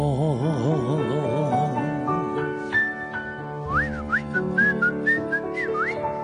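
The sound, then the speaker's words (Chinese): A carefree whistled tune, like someone strolling down a street with hands in pockets, with bright, wavering melodic notes over sustained musical tones. “吹下口哨咁喺街上边轻轻松松，两只手就插喺个袋度，然后吹下口哨咧就诶、哎、又一日啦咁样。”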